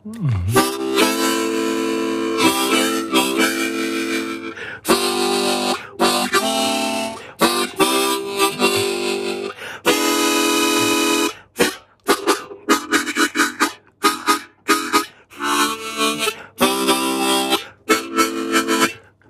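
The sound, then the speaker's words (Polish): A small chord harmonica sounds full, reedy chords: several long sustained blasts at first, then a run of shorter, choppy rhythmic chord bursts broken by brief gaps. “Ja tu mam ze sobą najmniejszą akordową harmonikę, którą po prostu przywiozłem tylko po to, żeby zademonstrować, jakie ona ma dźwięki. To nie jest harmonika, która wydobywa melodię, tylko daje akordy.”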